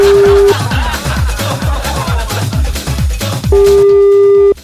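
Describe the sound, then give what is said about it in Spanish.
Telephone busy signal from a call that goes unanswered: a long, steady, loud tone at the start and another near the end, with rhythmic low thumping between them. “Dame un segundito que lo estamos llamando por acá.”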